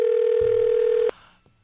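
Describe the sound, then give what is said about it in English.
A telephone ring-back tone while calling someone: one steady, mid-pitched tone holds for about a second, then cuts off, leaving faint low noise. “So I'm going to try to get him on the phone. Okay, let's see if he's home.”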